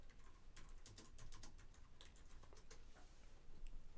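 Typing on a computer keyboard: many quick, light key clicks in an uneven stream, faint and steady throughout, with no talking.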